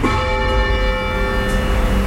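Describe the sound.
A church tower bell rung by hand with a rope pull rings out in a loud, sustained metallic tone with many steady overtones that hold evenly throughout, with no talk.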